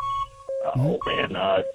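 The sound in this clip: Steady electronic beeping tones from a game show timer buzzer sound during a 15-second round of naming beer brands, holding at a fixed pitch beneath excited talking voices.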